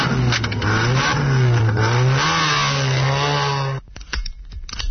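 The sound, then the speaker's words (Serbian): A car engine runs after the key is turned in the ignition, giving a loud, steady droning hum that wavers slightly in pitch as it revs, then cuts off abruptly near the end. “Ulazite u automobil, stavljate ključ u kontakt bravu,”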